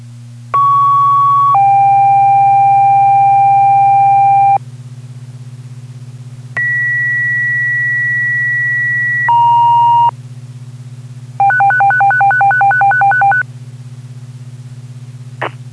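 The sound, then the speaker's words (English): Fire department dispatch alert tones: two pairs of steady pitched tones, each pair stepping down in pitch, then a rapid pulsing warble tone, all over a constant low hum. “I'll tone out again.”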